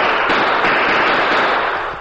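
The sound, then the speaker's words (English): Gunfire in a radio drama crackles as a dense, loud, continuous volley of shots lasting about two seconds, tapering off slightly at the end. “That's Kansas Mike shooting at us.”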